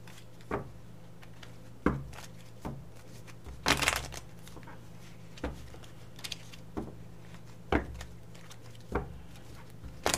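Tarot cards being shuffled and drawn, heard as faint, scattered soft snaps and taps at irregular intervals, with one louder papery rustle partway through, over a quiet background.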